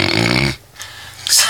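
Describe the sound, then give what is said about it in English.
Snore-like noise from a person's throat: a loud, low, rattling rumble lasting about half a second, followed by quieter breathy sounds and a brief hiss at the end. “Was that a snore? Was that a fart? It was my throat making the noise, I think.”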